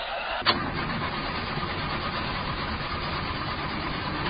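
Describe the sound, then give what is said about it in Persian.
Car engine cranking over without catching, on a car with a suspected faulty clutch plate. A sharp click opens it, followed by a steady churning rumble that runs unbroken to the end. No voices are heard. “آقا استارت نمیخوره.”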